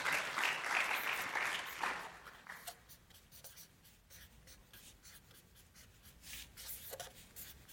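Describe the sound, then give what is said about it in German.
Pen or marker scratching as someone hand-draws a presentation slide, a run of quick, faint scratchy strokes following a louder wash of noise at the start. “Ich habe noch eine letzte Folie, die male ich euch.”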